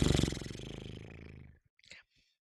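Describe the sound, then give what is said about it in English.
A horse's breath, a fluttering lip-trill exhale during a yoga session, sounds as a rapid, even train of buzzing pulses that slowly weakens over about a second and a half, followed by a short, faint breath. “Lengthen your arms out through your mouth any way you like. Maybe horse's breath.”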